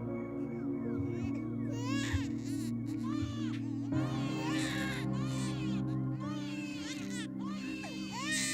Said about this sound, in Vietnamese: bởi vì nó vẫn nghe có tiếng trẻ con khóc vang lên trong đêm. Rõ ràng là 2 tiếng trẻ con khóc chứ chẳng phải là 1.